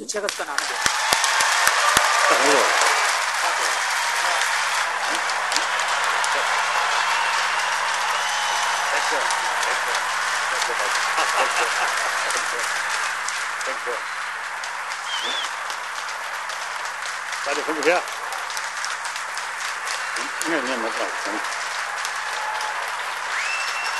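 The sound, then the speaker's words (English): Sustained applause welcomes His Holiness, a broad, even roar of clapping that holds steady for over twenty seconds, with a few voices briefly rising above it. “Ladies and gentlemen, please join me in a warm, loving, compassionate welcome for His Holiness.”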